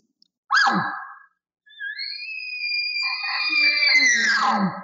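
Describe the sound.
A hunter's voice imitates an elk bull's roundup bugle: a short rising call, a brief pause, then a long, high, sustained whistling tone that breaks into a harsher, descending grunt at the end.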